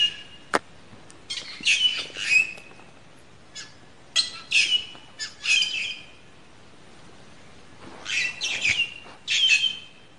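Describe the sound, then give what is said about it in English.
Cape Parrot calls: harsh, high-pitched squawks in several separate bursts with short gaps between them, loud and alone with no voices. “that's the sound of the Cape Parrot.”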